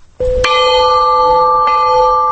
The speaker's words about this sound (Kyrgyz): Маркумдарды эскерүү зыяпаты тынчтык коңгуроосун кагуудан башталды.